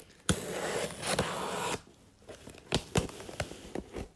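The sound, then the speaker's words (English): A knife cutting open a package: faint scraping and tearing of packaging material broken by a few sharp clicks and cracks, irregular and quiet, with no talk. “I have here a knife. Um, I'm told I'm allowed to use it. I'm, I will try to cut this without destroying the contents.”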